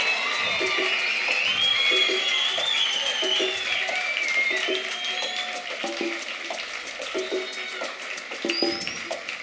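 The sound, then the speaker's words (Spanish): Applause and cheering from a concert audience for a live band: dense, continuous clapping with high whoops and shouts on top, loud throughout and easing slightly toward the end. “Quiero que hagamos un fuerte ruido y aplauso para estos hermanos que nos hacen bailar siempre.”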